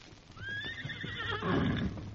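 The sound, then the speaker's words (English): A white stallion neighs, giving one strong whinny with a bright, wavering tone, while soft hoof clops sound beneath it. “Where's your horse? Here, Silver.”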